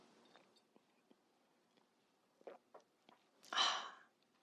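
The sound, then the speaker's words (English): A person sipping a drink: a few faint wet smacks and clicks, then one loud, breathy slurp near the end. “sorry, is that the grossest sound? When I just get ooky when people sip liquids on a podcast or a radio show.”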